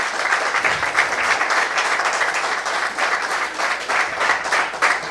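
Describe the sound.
A church audience applauding during a worship service: loud, dense clapping that runs continuously and evenly for the whole stretch, with no voices standing out.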